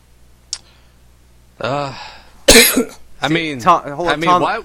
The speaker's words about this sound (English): see what happens when we talk about him? It just starts coughing.